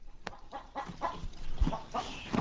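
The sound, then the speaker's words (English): A rooster clucks beneath a barn in a remote mountain town, giving a series of faint, short, throaty clucks in an irregular rhythm with no voices. “In a remote mountain town beneath a barn, a horse chomps on its feed, while a rooster fidgets in the background.”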